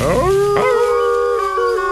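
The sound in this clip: Wolves howling: loud, sustained, tonal howls with layered harmonics that swell upward early and then hold a long steady pitch, with no talking.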